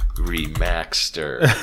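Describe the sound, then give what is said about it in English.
Typing on a computer keyboard: quick, light keystroke clicks under a voice that murmurs and talks throughout. “I'm just going to type that just so I don't forget it.”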